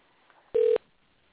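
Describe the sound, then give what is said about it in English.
A telephone keypad dialing tone sounds once, a single short, steady, loud beep standing alone. “We're dialing in to Mr. Howard's residence.”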